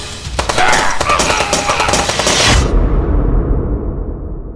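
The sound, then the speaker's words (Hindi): Gunfire comes from behind trees as a rapid burst of many shots for about two and a half seconds, then drops to a low, fading rumble. “पर तभी पेड़ों के पीछे छिपे अब्दुल ने उन पर फायरिंग शुरू कर दी”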